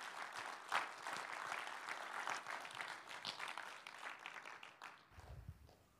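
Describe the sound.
Faint applause from an audience welcoming a guest onstage, a steady, dense patter of many hands that carries on for the whole stretch and eases off near the end.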